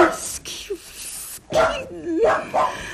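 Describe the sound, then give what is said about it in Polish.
A poodle barking at a séance, where it barks as the medium falls into a trance: a few short yips and a whining, rising bark mixed in with voices talking. “To nic. To tylko pudel pani Palladino. Szczeka, gdy ona wpada w trans.”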